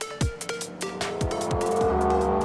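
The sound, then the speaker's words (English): Engines roar as fans drive their own cars around a NASCAR oval race track at a charity lap event. Several cars sweep past, each with a falling pitch, over a steady, loud engine wash. “Phoenix Raceway was roaring with engines as NASCAR fans were able to take 5 laps around the track for charity.”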